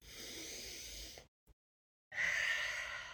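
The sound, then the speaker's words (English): A deep breath is drawn before a closing prayer: a long, airy inhale, a silent pause of under a second, then a long, breathy exhale, soft and steady. “I'm going to go ahead and take a deep breath and do our closing prayer.”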